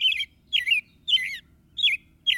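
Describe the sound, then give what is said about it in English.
American robin song: a few bright, warbling whistled phrases separated by short pauses, each phrase a quick run of rich, slurred notes, with a faint low rumble underneath. “So over the years, you've probably had many different sets of robins in your yard, even if it looks as if the same pair of robins has returned.”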